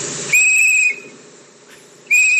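A shrill whistle sounds twice in steady, high-pitched blasts. The first lasts about half a second, and the second begins after a quiet gap of more than a second.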